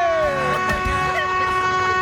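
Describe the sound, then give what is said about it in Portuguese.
Vehicle horns honking together to announce arrivals, a loud layered blare of steady sustained tones that holds through the whole stretch. “Os corno tá tudo buzinando pra dizer que tá chegando.”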